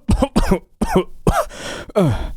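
An elderly man, about fifty, coughs in a harsh fit of rasping, hacking bursts that come in quick succession with short gaps between them.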